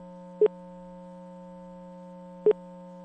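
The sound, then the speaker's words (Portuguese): Telephone line tone heard while calling a number and waiting for someone to answer: a steady electronic tone broken by two short, bright beeps about two seconds apart, with no voices. “Eu liguei certo, cara. Liguei certo. Vamos ver, atende aí, pô.”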